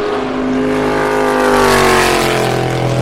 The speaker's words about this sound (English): That was definitely a Corvette. I didn't have to look to know it.